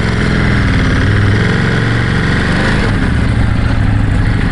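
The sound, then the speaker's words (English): A car engine runs loudly, giving a steady, dense low drone with a throbbing mechanical texture that stays even throughout, with no voices over it. “that is a gorgeous engine sound.”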